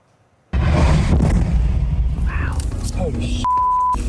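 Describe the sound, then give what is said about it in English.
A Russian missile explosion in Ukraine bursts in suddenly as a loud, rumbling roar, with people's voices mixed into the noise and a steady bleep tone near the end. “a close call with a Russian missile.”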